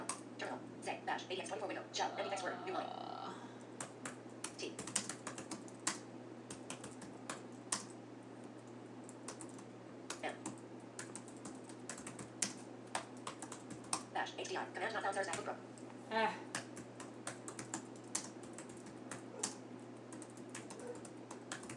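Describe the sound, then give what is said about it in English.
Typing on a computer keyboard in a terminal: many rapid, irregular key clicks, fairly faint, running throughout over a steady low hum. “Let me just type something in the terminal here.”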